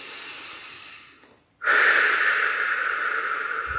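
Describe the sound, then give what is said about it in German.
A deep breath in and out: a soft, airy inhale fades into a brief pause, then a strong, sustained exhale hisses out loudly and steadily to the end. No one speaks. “Und noch einmal tief ein- und ausatmen.”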